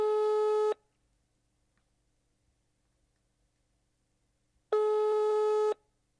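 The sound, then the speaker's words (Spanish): A telephone line tone heard while calling a health centre: two steady, loud, bright tone bursts, each under a second long, separated by about four seconds of silence, with no voices. “Ahí lo estamos llamando. Si tenemos suerte, hablamos con alguien del Centro de Salud Juan B. Flores.”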